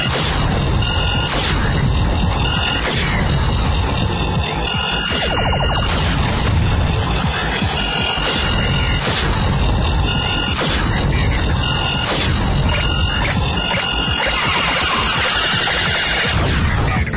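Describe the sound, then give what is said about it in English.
Electronic blasts and crashes from a space shooter video game as a ship is destroyed, sharp bursts recurring many times over a droning synthetic hum and thin whining tones. “Now, what you just heard was me destroying that ship.”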